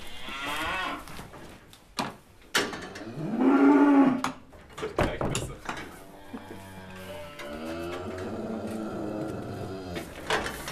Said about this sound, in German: Das Heu liegt jetzt zwar unten im Stall. Die Rinder sehen es vor sich. Es ist aber noch nicht in Reichweite der Tiere. Die sind schon richtig hungrig.